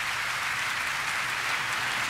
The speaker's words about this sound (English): We're still clapping.